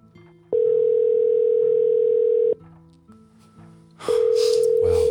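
An outgoing telephone call rings through as a steady mid-pitched ringback tone. Two long, even tones are separated by a quiet gap of a second or so, and the second tone runs until the end.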